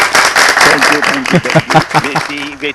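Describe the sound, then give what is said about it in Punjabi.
An audience breaks into applause, a loud burst of many clapping hands. Voices then begin talking over the fading clapping. “ਤਾੜੀਆਂ।”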